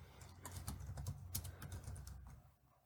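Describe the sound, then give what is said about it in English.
Faint, quick typing on a computer keyboard while someone searches for TV shows, with many irregular soft clicks in a rapid run that thins out near the end. “Do you want to type in TV shows?”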